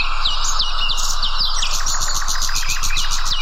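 Birdsong outdoors in nature: bright, rapid chirps and trilled notes repeat continuously and loudly, with several calls overlapping throughout.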